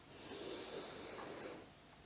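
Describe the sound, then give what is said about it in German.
During a guided relaxation exercise, one long, deep breath gives a faint, steady airy hiss that lasts about a second and a half and then fades away. “Lass deine Hände dann in deinen Schoß fallen oder neben dich. Und atme mit mir nochmal ganz kräftig ein”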